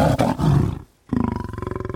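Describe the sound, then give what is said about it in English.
A pride of lions, three or four females with many cubs, vocalizes: deep, rough roaring, a brief pause, then a run of rhythmic pulsing grunts. “that pride, 3 or 4 females and, you know, 9, 10, a dozen cubs will come back to that place and just lay down right in front of your microphones and start vocalizing.”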